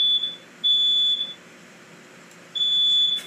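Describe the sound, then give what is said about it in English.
A smoke alarm sounds in long, steady, high-pitched beeps, a few sustained tones broken by pauses, with faint background noise and no talking. “That's my smoke alarm. Well, it stopped, so I guess it's not here.”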